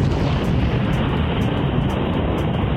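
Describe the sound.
Rocket engine ignition at launch, a loud, continuous, deep rumbling roar that holds steady and dense for the whole stretch without a break.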